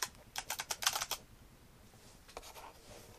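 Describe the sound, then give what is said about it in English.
Typing in grade 2 braille on a braille note-taker keyboard: a quick run of light, crisp key clicks, a pause, then a shorter and fainter burst of clicking. “I am writing on the Blindle.”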